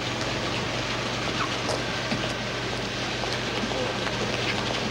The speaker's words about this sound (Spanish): Un taxista carga su maleta bajo la lluvia.